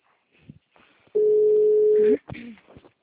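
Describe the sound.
A telephone dial tone sounds as a call is placed: one steady, even, low-pitched tone lasting about a second, loud and alone, with faint rustles and clicks before it and brief noise after.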